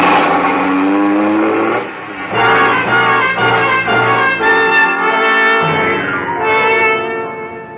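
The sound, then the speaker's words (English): A car drives out of a parking lot, its engine revving in a loud, sustained harmonic roar that dips briefly near the start before surging again and holding strong to the end. “As you drive out, he comes running up alongside of your car.”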